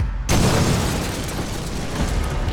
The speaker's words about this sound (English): an explosion shook the building, shrapnel bursting through the door.